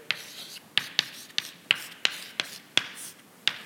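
Short scratchy strokes of writing on a board during a mathematics lecture, a steady run of many brisk marks in quick succession with no talk over them.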